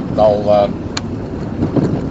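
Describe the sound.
Steady low road and engine rumble from a car being driven home, continuing under a voice that is talking throughout.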